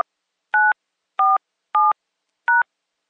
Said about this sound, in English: Please enter your password, then press pound.